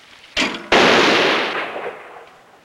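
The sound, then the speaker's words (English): A skeet rifle fires at a firing range: two sharp bangs in quick succession, the second louder and ringing out into a long, slowly fading tail. “Later, at a firing range, a woman watches Liggett aim a skeet rifle. Pull!”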